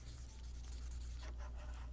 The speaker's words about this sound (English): I'm not allowed to have my phone in here, so I have to do this the old-fashioned way and write it down.